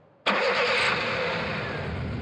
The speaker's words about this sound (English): As you get in your 1937 Ford Coupe and drive towards the Alegria Casino across LA, what's passing through your mind?